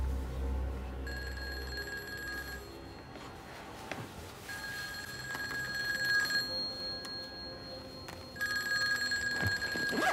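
Telephone ringing in three bursts of bright, trilling bells separated by pauses, the last running to the end, fairly quiet against a low background hum.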